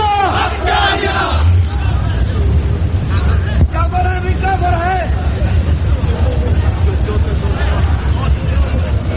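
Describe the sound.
A large crowd chants 'Allahu Akbar' in unison, answering a takbir call, a loud, sustained wall of massed voices with overlapping shouts that stays dense throughout.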